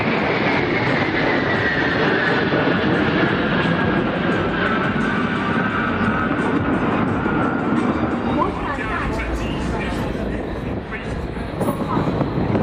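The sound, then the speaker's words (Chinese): A Y-20 transport aircraft and two J-16 fighters fly overhead in an aerial refueling formation, making a loud, continuous jet roar with a tone that slowly falls in pitch throughout. “运20，带着两架歼16从我们的上空飞过，一个空中加油队形。”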